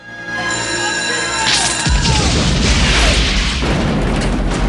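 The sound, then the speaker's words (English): A fuse box explodes in a ball of fire with a loud, sudden boom about two seconds in, turning into a dense rushing roar that holds to the end. Before the blast there is steady tonal sound with a falling whine. “What the hell was that? The fuse box explodes in a ball of fire.”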